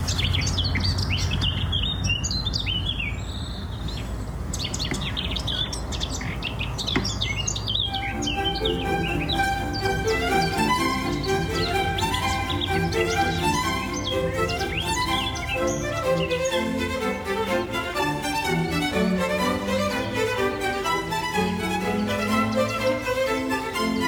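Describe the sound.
Birdsong recorded outdoors and sent in by a listener, with many bright chirps, trills and repeated high notes overlapping in a busy chorus that continues throughout.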